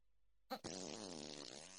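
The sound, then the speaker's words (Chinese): A woman's fart opens with a short sharp burst, then runs into a long, loud, buzzy blast with a wavering pitch that lasts over a second and is heard alone. “妈妈肚子里咕噜噜的叫唤呢，便意不断上涌。哦，儿子，妈妈要放屁了”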